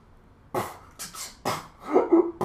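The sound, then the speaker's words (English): A person chokes and coughs while trying to hold back laughter, giving a few short, sputtering bursts separated by brief pauses. A squeaky, strained vocal note comes near the end. “that's me choking on myself, trying not to laugh”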